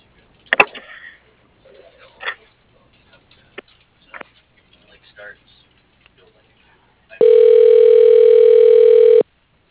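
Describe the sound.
A telephone tone sounds as a call is transferred to voicemail. Faint clicks and brief scattered noises come first, then a single steady, buzzy tone holds for about two seconds before cutting off.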